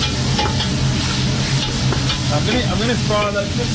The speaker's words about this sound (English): What happens when onions fry? There's a lot of acids that are converted into sugar.